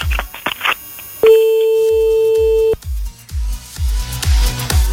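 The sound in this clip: A telephone ring tone from an outgoing call that goes unanswered: one steady, mid-pitched tone of about a second and a half, set between rhythmic low thumping beats.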